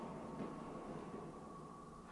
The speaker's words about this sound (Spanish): Clarito oí que venía el metro. Ay, cuánto tarda en pasar a esta hora.